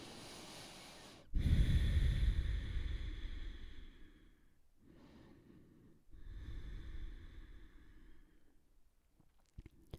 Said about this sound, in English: Pay attention, breathe.